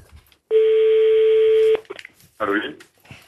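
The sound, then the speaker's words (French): A single steady telephone ringing tone sounds for a call placed to a listener's home near Reims, in the Marne, during a radio phone-in prize game. It holds evenly for just over a second, then a voice answers. “Allez, ça va sonner chez monsieur ou madame Prévost.”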